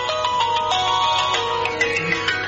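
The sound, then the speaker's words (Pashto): A mobile phone ringtone plays as a bright, melodic electronic tune of quick repeating notes at a steady, fairly loud level, with no voices over it. “د موبایل زنګ دی، ځواب ورکړه.”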